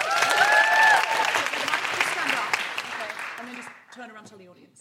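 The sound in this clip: An audience gives a round of applause for a volunteer at a live event. The clapping is dense and loud at first, then tapers off as a voice begins speaking near the end.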